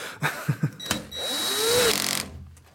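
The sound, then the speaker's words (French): A power screwdriver whirs as it drives screws through aluminium fairings onto the cargo box of an electric cargo bike. A few short knocks come first, then a sustained motor whine that climbs slightly in pitch before cutting off. “Toute cette caisse doit être protégée par des, des carénages en aluminium et c'est ce que je suis en train de visser”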